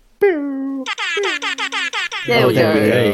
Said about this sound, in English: I heard the end bit of that air horn.